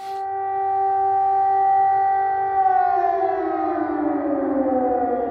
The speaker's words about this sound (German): Am frühen Nachmittag war der Himmel über Kiew strahlend blau, als ein in der Stadt allzu bekannter Lärm ertönte. Der Luftalarm kündigte die Gefahr durch ballistische Raketen an, dieses Mal ohne Folgen.